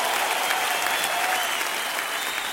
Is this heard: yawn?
no